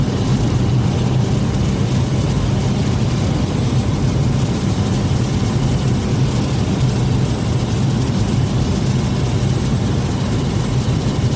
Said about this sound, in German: Und wir landen touchdown number one.